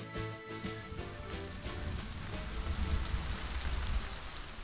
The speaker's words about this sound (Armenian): Բայց ահա եկավ առաջին անձրևը։